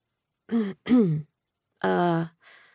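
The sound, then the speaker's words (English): Throat clearing: four short, rough, rasping bursts in quick succession, the first three loud and the last faint, with no speech. “I cleared my throat.”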